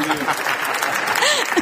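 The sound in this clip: Audience applause, a dense steady patter of many clapping hands through the whole short stretch at a political discussion event, with a voice talking over it.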